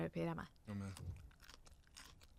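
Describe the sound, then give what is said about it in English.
Crunching as cooked broccoli is chewed: a few crisp, irregular bites and mouth sounds follow brief voiced sounds at the start, staying fairly quiet throughout. “Do you hear a crunch? Perfectly cooked.”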